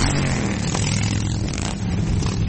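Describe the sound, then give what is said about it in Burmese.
Dense engine rumble from a mass motorcycle ride, the Rolling Thunder rally of roughly 900,000 riders circling through Washington DC, a continuous loud low roar with no breaks. “ဆိုင်ကယ်စီးသူ9သိန်းလောက်ဟာမြို့ကိုလှည့်လည်မောင်းနေတာကြောင့်မိုးချိမ့်တန်လို့လဲကြားနေရပါတယ်။”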